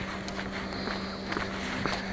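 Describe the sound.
Slow footsteps of a person walking behind on a sunny day near a workplace: a few soft, evenly spaced steps, faint against a steady background hum.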